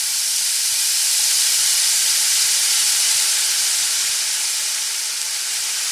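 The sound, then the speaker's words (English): An egg sizzling as a sound effect: a loud, bright, continuous hiss that stays even and unbroken from start to finish. “that was the sound of food sizzling”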